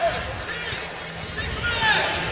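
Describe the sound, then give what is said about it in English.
A basketball is dribbled slowly on the outside during a college basketball game, its bounces set against a constant wash of crowd noise. “Slow dribble outside.”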